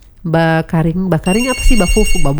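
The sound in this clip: A telephone rings with a steady high electronic tone that starts midway and runs under a voice speaking.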